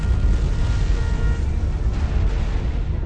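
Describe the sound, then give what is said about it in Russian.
Loud explosion of a torpedo striking a ship at sea, a dense, heavy low rumble that roars steadily for about three seconds without fading, with no voices. “до Улисса донесся грохот мощного взрыва”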